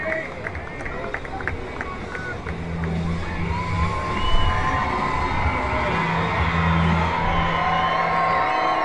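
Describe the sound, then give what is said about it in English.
Baseball crowd cheering for batter Freeman on a full count, a steady roar of voices with scattered whoops that swells slightly midway and holds. “Crowd getting behind Freeman, who's been a fan favorite all year.”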